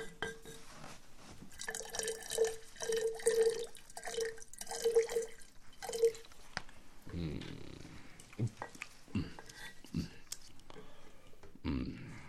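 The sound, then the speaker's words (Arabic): Laban (buttermilk) poured and dripping into a glass as a servant serves it for drinking, a faint series of short liquid drips early on, followed by scattered low knocks. “صب لنا أيها الخادم من هذا اللبن لنشرب.”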